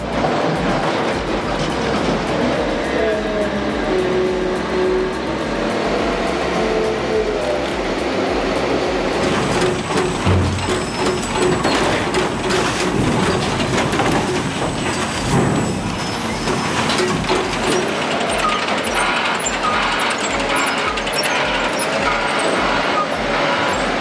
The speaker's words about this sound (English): These powerful Liebherr machines are the unsung heroes of the sawmill, working tirelessly to keep the wood flowing.